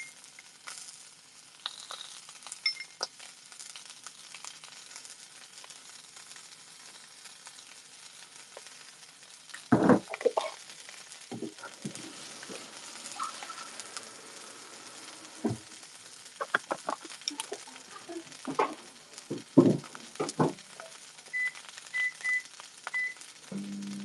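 Sausages sizzle and crackle as they fry in a pan until slightly burnt: a steady hiss with many sharp pops and spits scattered throughout, growing busier in the second half, with no talking.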